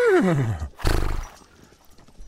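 A horse neighs in a loud whinny that falls steadily in pitch, followed by a rough, noisy burst and then softer, irregular hoof clopping.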